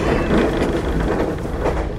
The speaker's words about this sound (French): bienvenue à bord du TER Champagne-Ardennes à destination de Givet